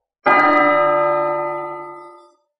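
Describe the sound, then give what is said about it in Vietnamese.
A large golden bell hanging in a celestial tower above an ancient city rings out with a single strike, a rich metallic tone full of overtones that sustains loudly and fades away over about two seconds, heard alone. “Trong một tòa thiên khuyết treo một cái chuông lớn màu vàng, tiếng chuông rung động khắp thập phương, vang vọng chấn động cổ thành phía dưới.”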